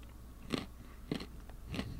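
Crunchy granola with nuts and honey being chewed: three faint, evenly spaced crunchy bites over a quiet background.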